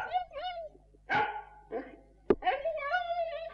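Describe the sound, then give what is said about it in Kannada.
Dog barking, a few short sharp barks breaking in between stretches of people talking, moderately loud against the voices. “ಇದು ಫೇಬಿಯೋನ ಮೆಚ್ಚಿನ ನಾಯಿ. Elijah, ಈ ನಾಯಿಯನ್ನು ಕಟ್ಟಿ ಹಾಕು.”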